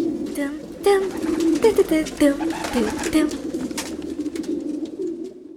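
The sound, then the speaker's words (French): Pigeons coo at a large pigeon breeding loft, with many overlapping low, warbling calls in a steady, continuous stream. “Ils ont un sacré élevage de pigeons.”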